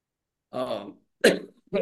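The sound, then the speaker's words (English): A person coughing in three short, rough bursts, the first longer and more voiced, the next two sharper and quicker, with silence between and no talk. “It's like the one time I get a cough when I'm talking about.”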